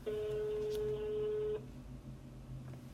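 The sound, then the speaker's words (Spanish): Telephone tone signalling an incoming call during a radio program: one faint, steady electronic tone lasting about a second and a half, then stopping, over a low background hiss. “parece ser que nos está entrando una llamada”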